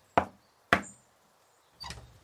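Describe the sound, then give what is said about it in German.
Knocking on a door in a dramatized story: two sharp, crisp knocks in quick succession, then after a pause a duller, longer knock-like thud, no talk. “Hier ist es. Doch am Ende klopft auch er.”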